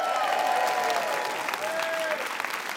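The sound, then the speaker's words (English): An audience welcomes a comedian onto a stage with steady, full applause, a continuous dense patter of clapping from start to finish. “For their show, All In, please put your hands together and welcome the brilliant Dan Tiernan!”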